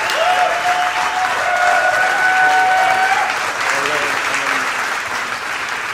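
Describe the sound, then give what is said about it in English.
Loud, sustained audience applause welcoming a guest speaker from Canada at a Saturday evening gathering in Kennewick, Washington, dense clapping throughout with voices mixed in. “Would you give him a hand as he comes tonight?”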